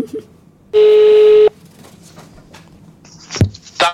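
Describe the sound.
A single steady electronic telephone tone as a call is placed, sounding loud and evenly pitched for under a second, then quiet line noise with a few faint brief clicks.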